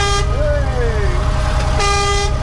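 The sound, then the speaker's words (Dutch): Truck air horns sounded by children tugging the horn cords, giving loud sustained toots. One long blast bends in pitch, and a second blast follows later, all over a steady engine rumble and people talking. “Al die kindertjes die staan aan de horens te trekken.”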